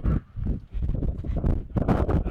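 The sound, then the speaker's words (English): Gusty outdoor wind buffets the microphone near a ball field in Bloomington, a loud, continuous low rumble that swells and dips briefly, with no voices. “would you mind if we like kind of get out of the wind for a sec?”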